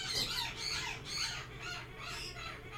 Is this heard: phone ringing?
no